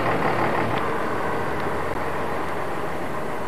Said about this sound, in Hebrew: חתול כובש עוד מסלול ליד השניים שכבר עשה.